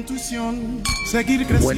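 Drinking glasses clink together in a toast, giving a few bright, ringing taps that overlap a sustained tonal hum.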